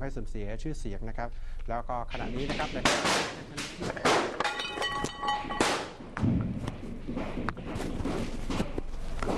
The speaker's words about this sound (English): You can hear the gunfire in the background.